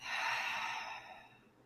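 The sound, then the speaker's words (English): A single deep breath, drawn in through the nose and let out through the mouth. It is a soft, airy hiss that swells quickly, then slowly fades, with no talking. “take three deep inhales in through the nose, out through the mouth.”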